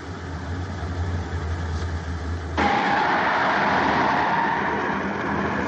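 A car carrying Michael and two gunmen in The Godfather drives with a low, steady engine hum, then switches abruptly partway through to a louder, broad rushing road noise that continues to the end. No one speaks.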